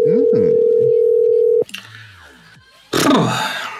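A steady, loud, single-pitched telephone dial tone holds for about a second and a half, then cuts off into quieter line noises and a closing burst of sound.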